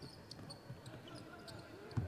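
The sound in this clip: A basketball is dribbled on the court during a high school game, with several firm, hollow bounces at an uneven rhythm over faint background voices.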